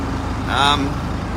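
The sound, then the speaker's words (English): Steady low engine drone from a truck working during the grain harvest, a constant rumbling hum with a brief brighter tonal sound in the middle. “This is the truck that I'm driving, cutting grain. This is grain going into the chaser bin.”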